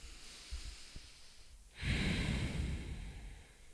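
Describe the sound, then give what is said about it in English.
A deep breath is drawn slowly and audibly after a quiet stretch with a few soft small noises. The long breathy rush swells and then eases gradually, with no talking. “So, taking a deep breath with us”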